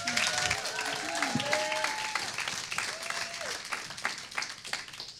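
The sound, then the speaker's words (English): Applause from a church audience welcoming a woman to the pulpit: steady, dense clapping that fills the whole clip, with a few voices mixed in. “And so, welcome to the pulpit. And you already, you. you already have your own microphone. Give Kim a big hand.”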